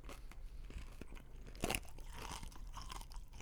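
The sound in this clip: Crunchy food being chewed during a tasting: many irregular, crisp crunches and crackles in a quiet run, with one louder crunching bite midway.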